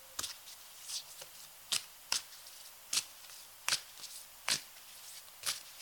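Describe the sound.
Cards being shuffled for a solstice card reading: crisp riffles and sharp snaps recur many times at an irregular pace, each a short papery burst over near silence, with no voices.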